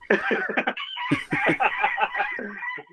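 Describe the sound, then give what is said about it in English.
Birds call harshly as they swoop down around a person, a dense run of rapid, overlapping squawks and cackles that stays loud and continuous throughout. “it's a bit like Alfred Hitchcock, the birds. They're swooping down on me at the moment.”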